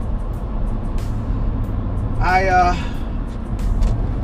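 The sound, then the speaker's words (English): Steady low road rumble inside a moving car at dusk, continuous throughout, with a voice speaking briefly over it in the middle. “I'm driving right now, and one of my headlights has gone out, and it has gotten dark,”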